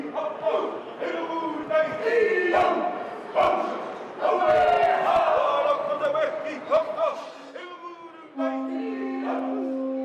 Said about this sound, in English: Indigenous Maori perform a welcoming ceremony as the Carnival Australia's Pacific Explorer cruise ship docks in Auckland with around 2,000 passengers and crew.